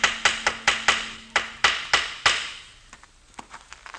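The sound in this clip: A hammer nails up a sign outside a house, landing a quick, even series of sharp, ringing blows, then a few softer, scattered taps as the work winds down.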